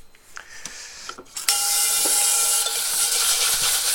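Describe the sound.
Burnt residue being scraped off a washed, oiled frying pan. A few faint clicks come first, then a loud, continuous, harsh scraping hiss that runs steadily to the end.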